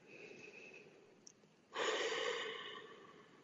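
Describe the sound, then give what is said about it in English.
A deep breath taken during a group prayer and meditation for peace: a soft, airy rush that starts abruptly after a quiet stretch, swells, then slowly tapers away, with no talking. “So let's all take a deep breath.”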